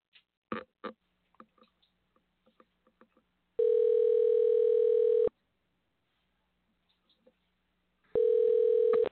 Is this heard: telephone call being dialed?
yes